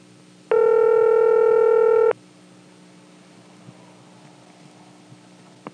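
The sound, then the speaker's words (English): A steady, loud telephone tone on a line in Colonial Beach, Virginia, while a not-in-service recording was playing. It lasts about a second and a half, then drops to faint line hiss with a few small clicks. “We were resetting the trunk there. Every time you flash or dial on top of the recording, it goes back to the ring.”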